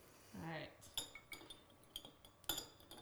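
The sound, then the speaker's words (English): A fancy spoon clinks against glasses while stirring Christmas cocktails, making a series of bright, sharp metallic ticks and chimes in an irregular rhythm at a fairly quiet level. “do you want to stir them with the fancy spoon?”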